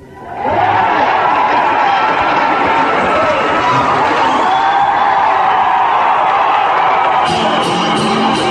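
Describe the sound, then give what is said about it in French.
Live concert audience cheering and applauding the band, a loud, sustained roar of claps and shouts that rises quickly at the start and holds steady throughout. “Mais vous pouvez applaudir mon groupe.”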